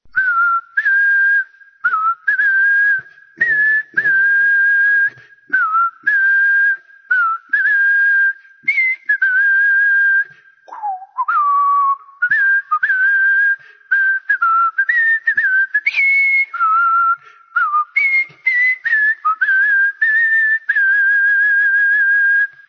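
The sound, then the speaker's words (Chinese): A person whistles a song melody alone: a clear, loud, pure tone moving through many short notes and held pitches, broken by brief pauses between phrases, with no talk. “我用口哨吹一遍了，因为我这个声音实在是不好听。”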